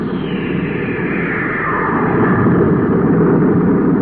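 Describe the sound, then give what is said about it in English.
A cosmic missile fired from a spaceship makes a loud, continuous roaring rush that swells slightly over several seconds, with a falling tone sweeping down through the noise. “we're going to test that cosmic missile after all. Stand by to fire.”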